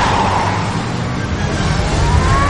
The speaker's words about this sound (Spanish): Los vehículos rozan violentamente sus laterales. Los dos giran sobre sí mismos tras el impacto.